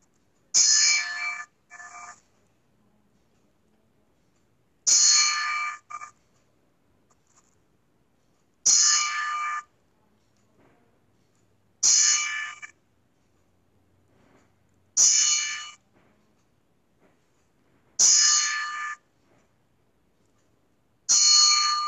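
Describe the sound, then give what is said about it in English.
A bell rung as a ten-bell salute to mourn a deceased colleague. Seven clear, evenly spaced strikes ring out alone, each a bright ringing tone that cuts off quickly, with long silent gaps between them. “We're going to do a 10 bell for Mitch”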